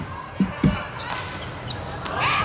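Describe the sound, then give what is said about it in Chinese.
Two dull ball impacts as a volleyball serve is struck during a match, close together and under a commentator's voice. “邓林宇来发球，14-18。”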